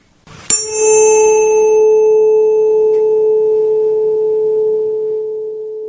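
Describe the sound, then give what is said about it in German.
A pure A tone at 440 hertz rings out after a sharp attack. It holds steady and loud for several seconds, then fades slightly toward the end. “Der nächste Ton ist der Ton A mit einer Frequenz von 440 Hertz.”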